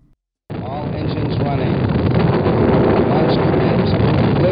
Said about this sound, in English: We have liftoff 49 minutes past the hour.